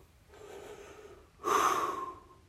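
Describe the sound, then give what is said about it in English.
A person takes a deep breath: a soft, airy inhale, then a louder, breathy exhale that trails off, with no talking. “just take a moment to relax. You know, just take a deep breath. Whew.”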